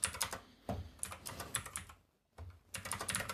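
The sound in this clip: Quiet computer keyboard typing in quick, irregular bursts of clicks that pause briefly and then resume, as a date is entered into notes.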